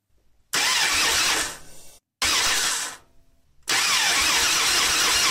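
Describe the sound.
A car engine cranks and fails to start. Three loud, rasping starter-motor bursts, the second shorter and trailing off into a low rumble, with brief silences between them.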